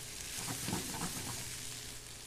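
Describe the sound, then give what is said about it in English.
Garlic frying in a pan while being stirred around: a soft, steady sizzle with faint scraping movement, fairly quiet and with no voices. “I don't want to add the garlic too soon because I don't want to burn it. And I just stir that around and let that the bouquet of that garlic smell kind of start to come out.”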